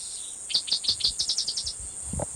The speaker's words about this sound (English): cicadas in the background